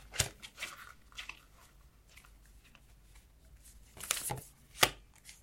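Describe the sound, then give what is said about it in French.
Tarot cards are pulled from a box where an elastic band holds them, giving a few faint rustles and crisp clicks separated by quiet stretches, with sharper snaps clustered near the end. “après je sors mes cartes. Selon le jeu, c'est une boîte où elles sont tout simplement tenues par un élastique.”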